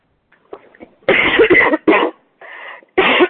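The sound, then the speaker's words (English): Harsh coughing, a few loud rasping bursts in quick succession after some faint throat sounds, with no talk over them. “I'm not sure where that cough came from.”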